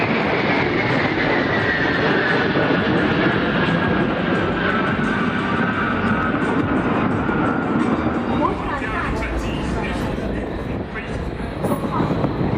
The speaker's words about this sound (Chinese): 2020带着两架歼十六从我们上空飞过一个空中加油队形。